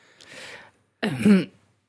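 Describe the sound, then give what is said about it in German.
Someone clears their throat in two bursts: a soft, breathy rasp first, then after a short silence a louder, rougher, voiced rasp that fades quickly. “Erstmal räuspern.”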